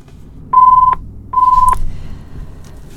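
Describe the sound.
Telephone dialing tones as a number is keyed in: two clear, steady electronic beeps of equal pitch, each lasting under half a second, separated by a short gap over a quiet background.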